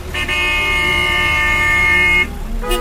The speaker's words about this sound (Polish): Jedna z głównych ulic we wschodniej części Mosulu. Samochody z trudem przeciskają się obok siebie.